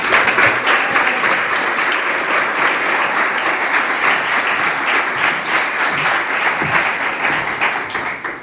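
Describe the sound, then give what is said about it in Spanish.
Audience applause at a Women's Day event, a steady, dense clapping from a crowd that stays loud throughout and eases off slightly at the end. “Vamos a darle un fuerte aplauso.”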